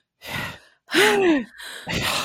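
A person vocally imitates a film actress's breathy gasp in three short bursts. The middle burst is the loudest and is voiced, with its pitch rising and then falling. The outer two are airier breaths.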